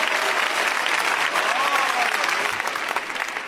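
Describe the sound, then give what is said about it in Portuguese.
An audience claps their hands at a church service, a dense, steady stream of applause that carries on without pause. “Podem bater as palmas para Jesus, meus irmãos.”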